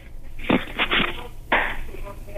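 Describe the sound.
An egg being cracked open: a few short, crisp cracks of breaking shell, with small crunching sounds between them and a faint background hiss.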